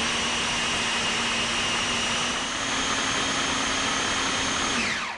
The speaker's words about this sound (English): the goal here is just to puree the vegetables. So no higher than, say, a third of the bowl. A little liquid there, just to loosen it up. Go ahead and put the lid on, and I'm going to give it a little whirl.